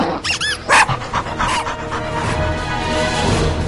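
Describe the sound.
A small dog gives a few sharp, high yapping barks and whines at the start, then pants rapidly and steadily. The whole sequence is loud and close.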